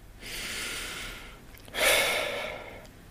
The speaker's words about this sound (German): dann schließt du einfach mal die Augen und nimmst einen ganz tiefen Atemzug.